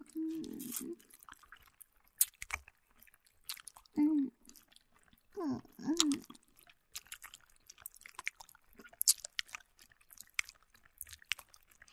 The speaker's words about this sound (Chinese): 我嘴里含着棒棒糖的声音